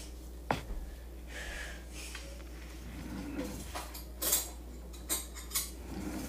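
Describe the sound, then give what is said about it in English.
A metal spoon is handled to open a strawberry applesauce pouch, giving a few faint clinks and scrapes over a steady low hum. “I have a spoon. Okay, guys, this is the more convenient way to open this.”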